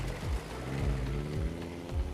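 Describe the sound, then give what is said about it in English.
A truck drives along a dirt road through the bush and savannah, producing a steady low rumble with rattling over the whole stretch. “Derek and Kate get back into the truck. They drive into the bush.”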